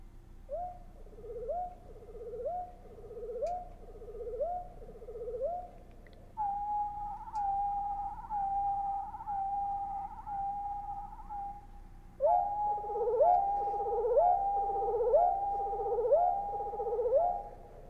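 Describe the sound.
Songbird flourish sung with both voice boxes in harmony: about six seconds of repeated rising whistled notes, then a steadier sustained tone with soft pulses, then both voices layered together in a fuller repeating pattern.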